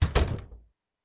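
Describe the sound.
A door is shut with a dull wooden thunk, two quick impacts close together followed by a short rattling decay, then silence.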